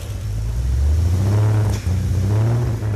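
A freshly assembled, newly lubricated engine starting for the first time, a loud, low throbbing rumble that swells up, dips briefly, then picks up again into revving.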